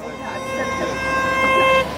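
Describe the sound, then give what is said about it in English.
A car horn honks in celebration as the car pulls up a hill. It gives one long, sustained, brassy tone over a low vehicle rumble, then cuts off abruptly just before the end. “a car pulls up the hill, honking in celebration.”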